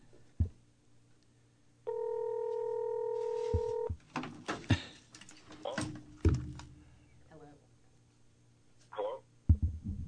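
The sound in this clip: A telephone number is dialed. A steady electronic tone holds for about two seconds, followed by a scatter of clicks and short beeps, with people talking in between.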